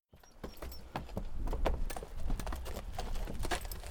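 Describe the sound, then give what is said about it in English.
Hooves clip-clop steadily along a road as a horse pulls a buggy: many quick, sharp hoofbeats in a continuous rhythm above a low, constant rumble. “climbed back into their buggy and started for home. As they rode”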